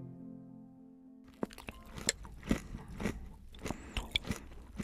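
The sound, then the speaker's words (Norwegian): Crunchy breakfast cereal eaten with plenty of milk: many crisp bites and chewing crunches follow one another in an uneven rhythm, fairly faint, after a soft low hum at the start. “Dette er lyden av meg som spiser god dag frokostblanding.”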